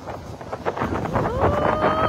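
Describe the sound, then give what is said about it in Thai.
Strong wind buffeting a microphone outdoors in rough, irregular gusts, with a voice faintly audible under the roar toward the end. “โอ้โหลมแรงสุดๆเลย”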